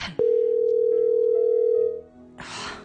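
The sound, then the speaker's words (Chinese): A telephone call rings out unanswered: one long, steady electronic tone lasting under two seconds, followed by a short burst of hiss. “冇人听嘅，”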